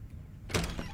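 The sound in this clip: Door being opened as someone comes in, a short burst of rustling noise that breaks a near-silent pause about halfway through, then fades quickly.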